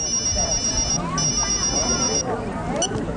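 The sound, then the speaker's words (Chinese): A mobile phone rings at a banquet hall entrance with a high, pulsing ringtone in two bursts and a short gap between them, over steady background noise with speech-like sounds beneath. “蔚蓝的手机响”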